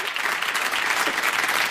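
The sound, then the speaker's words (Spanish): Brief applause from an audience during a quiz-style game, a continuous patter of many hands clapping at moderate volume with no pauses. “¡Aplauso! Bueno, pero vamos a ver qué rapidez. Unos aplausos por...”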